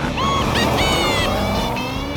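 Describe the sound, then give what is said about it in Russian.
A cartoon lunar rover with huge wheels revs its engine hard, kicking up moon dust; a loud, continuous motor roar with a slowly climbing pitch fills the whole moment. “Снупи газует, засыпав Вудстока и его друзей и машину лунной пылью.”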